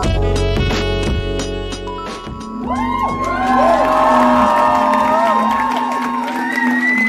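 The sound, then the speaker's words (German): A concert crowd at the Reeperbahn Festival, with its club, church, theatre and open-air stage shows, cheers loudly with whoops and shouts. Music fills the opening seconds, then high, gliding whoops rise over a dense roar of voices. “So oder so ähnlich klang es in der vergangenen Woche in sämtlichen Clubs, Kirchen, Theatern und auf Open-Air-Bühnen auf dem Reeperbahn-Festival.”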